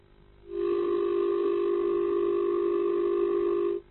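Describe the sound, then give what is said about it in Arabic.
A telephone line tone after a phone-in call is cut off: one steady, low-pitched electronic hum that starts abruptly, holds unchanged for about three seconds, then stops. “طيب نستكمل مره اخرى، اتصال انقطع”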